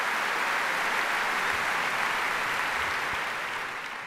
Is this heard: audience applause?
yes